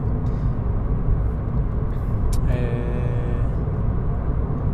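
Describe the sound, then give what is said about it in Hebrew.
A car driving on the road, a constant loud low rumble of engine and tyre noise with a brief thin tonal whine midway. “אני נוסע עכשיו חזרה הביתה לתל אביב, מהביתה יוקנעם”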